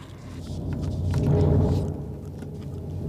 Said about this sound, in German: Das Gewitter kommt näher. Das Haus wird zerfallen unter dem Donner.